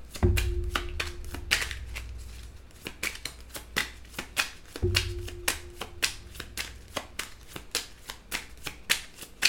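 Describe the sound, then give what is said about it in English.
Tarot cards being shuffled by hand: many crisp slaps and flicks in an uneven, fairly quick rhythm, with two longer riffling bursts standing out, and no talk. “Let me pull one from Under the Roses right quick.”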